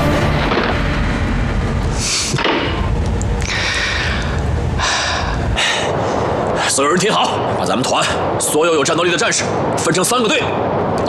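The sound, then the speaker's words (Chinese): Heavy artillery shelling from five German cannons in a wartime battle: repeated loud booming blasts and bursts over a constant rumbling din, with voices mixed in. “等我哥那边炮击声结束之后”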